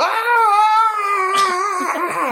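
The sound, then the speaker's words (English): A person imitates a creature's howl with a long, loud, sustained wail that holds a steady pitch and wavers slightly, then breaks into a few short quavering wobbles near the end. “This is when Rogvir just howls. You just hear him go,”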